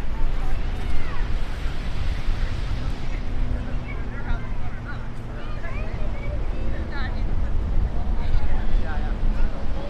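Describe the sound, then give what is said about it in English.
Wind and waves at Venice Breakwater, heard as a steady, loud rush of wind buffeting the microphone mixed with surging water, with no distinct breaking crashes. “This is Venice Breakwater. I think the tide, I gotta double check, but usually breaks, not like breaking it right there because the tides are probably not allowing it.”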